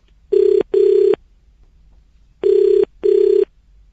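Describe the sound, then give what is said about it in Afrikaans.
Telephone ringing as a presenter calls a guest: two double rings, each a pair of short, loud buzzing bursts at a steady mid pitch, the pairs separated by a quiet pause. “gaan ek vir tomme klaglin verbonde aan unisa en voorsitter van die taalkommissie bel en hom vra om ons te help”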